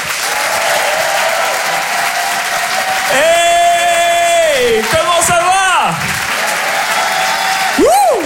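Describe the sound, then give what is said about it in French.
A French comedy club audience claps and cheers for a comedian arriving on stage: dense applause throughout, topped by loud whoops and a long sustained shout. “Faites un maximum de bruit, s'il vous plaît, pour Nick Mukoko.”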